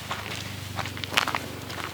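Footsteps walking along a mountain path toward a flat clearing of ancient building foundation stones: a few soft, crunchy steps at an uneven pace, fairly faint, over a steady low hum.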